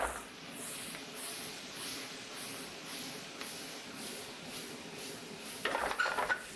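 Leeks caramelizing in oil in a pan sizzle steadily while being stirred, with a soft continuous hiss and a brief burst of utensil clatter against the pan near the end.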